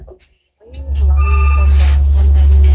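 A telephone rings for an incoming call on a call-in phone line: a loud, repeating electronic ring over a strong, steady low hum.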